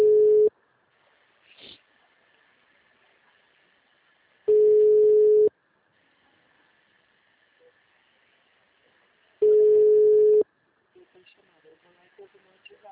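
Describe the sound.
A telephone call being placed, with a steady, mid-pitched line tone sounding in three bursts of about a second each, separated by long silent gaps, and faint clicks and rustle at the end.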